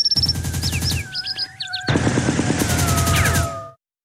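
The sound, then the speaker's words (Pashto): Gunfire crackles in rapid succession, many shots in two dense runs separated by a brief lull, with bird chirps audible among the bursts. “د په مرغۍ پسې کتل چې څو پرله پسې ډزې سوې.”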